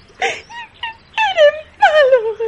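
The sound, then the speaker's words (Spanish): A little girl crying: a short sob, then two long wavering wails that slide downward in pitch. All three are loud and heard alone. “La niña rompe a llorar.”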